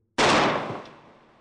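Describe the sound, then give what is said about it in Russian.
A single gunshot, fired from a gun by a hegumen, cracks out sharply and loudly after brief silence, then trails off in a decaying tail that lasts about a second. “Звук выстрела был похож на зловещий треск крепежной стойки, не выдержавшей давления горных пород.”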